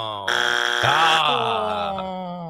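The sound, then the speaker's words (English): A game show buzzer is pressed during a practice round, giving a loud, sustained electronic tone that shifts abruptly in pitch a few times before tapering off. “I will give you the thumbs up or the thumbs down so you can hit that buzzer. Sounds good. It's so all about this. Let's practice it.”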